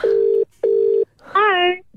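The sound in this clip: Telephone line tones as a call is placed: two steady, even beeps with a pause between, followed by a brief voice answering.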